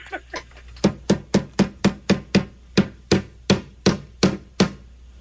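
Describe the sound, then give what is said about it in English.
A hammer strikes many times: two softer taps, then a long run of sharp, loud, ringing blows in a steady, fairly even rhythm. “That's a hammer.”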